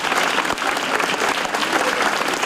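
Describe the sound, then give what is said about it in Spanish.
Dense, steady applause from mourners as a coffin arrives at a church for a funeral. The clapping forms an even, continuous wash from start to end, with no talk over it. “Más de una veintena de coronas acompañaban al féretro a su llegada a la iglesia y con este aplauso le despedían.”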